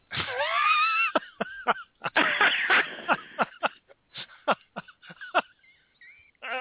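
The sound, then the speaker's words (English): Coughing and spluttering after tea spurts out through the nose: many sharp, irregular bursts of harsh coughs and wheezy splutters, with a throaty, strained edge, and no speech. “I've just spurted my tea out my nose.”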